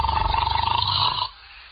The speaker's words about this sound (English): must you start snoring as soon as you close your eyes?